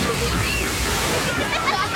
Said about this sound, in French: si on enlève les splouches de nos nouveaux jeux aquatiques, les splashes